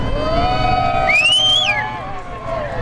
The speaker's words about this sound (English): A lot of people cheered as the president arrived at the Youth Event Center here in Kerrville.